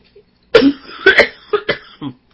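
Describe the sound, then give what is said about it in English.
Coughing after swallowing saliva the wrong way: several harsh, uneven coughs and throat-clearing bursts, loud and alone, with short gaps between them. “I'm just swallowed some spit the wrong way.”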